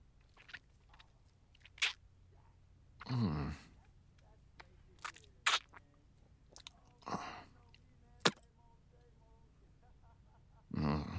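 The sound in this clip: Someone chews and crunches food up close: a few loud, crackly crunching bursts separated by quieter wet mouth clicks and smacks.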